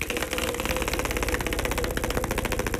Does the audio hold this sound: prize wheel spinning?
yes